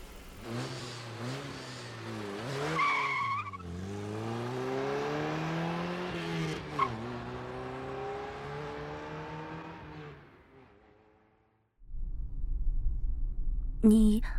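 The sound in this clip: A sports car engine revs and accelerates, its pitch climbing in a few sweeping surges between gear shifts, then dying away to near silence before a short burst of other noise.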